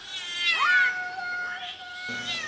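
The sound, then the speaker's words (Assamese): Two kittens meowing while running about: a few faint, drawn-out, high-pitched meows with some wavering pitch, alone with no talk. “ইমান দুটা মেকুৰী পোৱালি উৎপাত কৰিছে একেবাৰে দৌৰা দৌৰি দৌৰা দৌৰি হুলস্থুল একদম ইফালে গৈছে সিফালে গৈছে চিঞৰ পাখৰ মেও মেও মেও মেও এনেকৈ”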